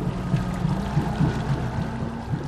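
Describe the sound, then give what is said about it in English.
A mail-delivery boat runs over choppy water on California's Delta, producing a steady, dense engine and water rumble with no voices. “only mailman in California who delivers by boat”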